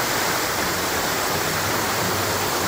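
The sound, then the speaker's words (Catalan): A waterfall about 20 metres high on the Ges river, running in high water, gives a steady, loud, hissing roar of falling water. The sound is unbroken throughout and heard alone. “El salt del molí de Salgueda, que és una cascada d'uns 20 metres d'alçada que, en dies de molta aigua, sona així, escolteu.”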